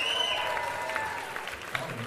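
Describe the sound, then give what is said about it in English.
Applause from an audience for the rhythm section of a live band, a steady dense wash of clapping that holds at an even loudness across the whole stretch without pause. “Now, can we have a big cheer, please, for the rhythm section?”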